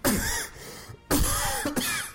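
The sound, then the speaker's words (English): Harsh coughs and throat clearing from a person playing a role-playing video game, a few rough bursts in quick succession with a short gap between them, heard alone without talk. “He's got a cough there. You need to cut them out.”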